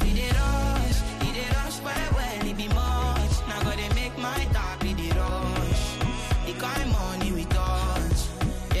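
A modern pop track with a punchy, driving beat plays loud and dense, with steady percussive hits under layered synths and melody and no talking.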